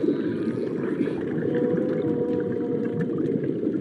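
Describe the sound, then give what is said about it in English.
Whale song in the East Australian current: a sustained low tonal moan over a dense, constant watery rumble, with faint higher tonal traces drifting above and no voices. “Whale song.”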